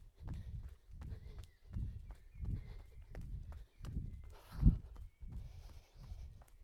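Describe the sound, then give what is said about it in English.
Footsteps of someone running on a flat stretch, a steady series of many soft, low thuds at an even, quick rhythm, with no talking. “Time to uh, run again. Off we go.”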